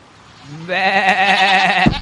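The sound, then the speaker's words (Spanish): A goat bleats while someone tries to get it moving and make it fetch a stick: one long, loud, wavering bleat with a strong harmonic, nasal tone, heard alone. “¡Movete, cabra! ¡Movete!”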